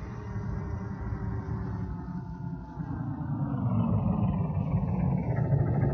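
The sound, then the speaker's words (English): A military vehicle approaches with a low, steady engine rumble. The rumble is quiet at first and grows gradually louder toward the end. “Just as I feared. A military vehicle. And a very business-like-looking captain sitting beside the driver.”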